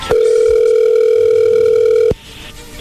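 A telephone call rings out with one long, loud, steady ring tone lasting about two seconds. The tone cuts off abruptly, leaving only faint low noise.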